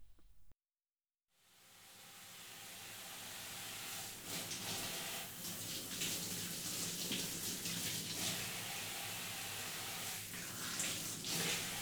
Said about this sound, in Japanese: はい、それじゃあ髪の毛を濡らしていきますね。